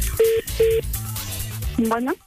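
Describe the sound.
Telephone keypad dialing tones sound as a caller adds a three-way call: two short, steady beeps of equal pitch, each followed by a brief gap. A voice then begins speaking.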